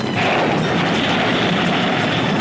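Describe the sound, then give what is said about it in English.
Laser weapons fire at an alien spaceship in a sci-fi space battle, a loud, dense roar of blasts that stays steady and unbroken. “Arm all lasers! Destroy that alien ship!”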